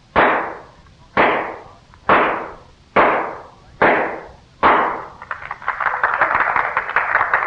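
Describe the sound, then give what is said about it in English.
Six sharp gunshots from a .38 caliber revolver, fired at a spike in a pine board from twenty paces. They come evenly, about a second apart, each a loud crack with a short decay, and a steady crackling wash follows. “Miss Oakley will drive a spike into a pine board with six shots from a .38 caliber revolver”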